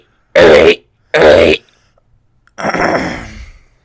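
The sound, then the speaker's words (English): A person loudly clears their throat in three harsh bursts: two short ones close together, then a longer, rougher rasp that trails off. “That finally cleared my throat.”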